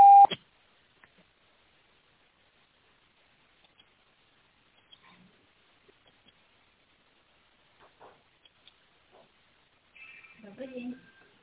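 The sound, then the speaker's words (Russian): A voicemail beep follows the busy message: one short, loud electronic tone at the very start, then near silence with a few faint ticks, and soft sounds near the end. “Вызываемый абонент, к сожалению, все еще занят. Вы можете оставить для него голосовое сообщение после сигнала.”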